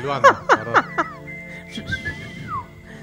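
A person whistles four short, bright notes in quick succession, then a softer held tone that ends in a downward glide.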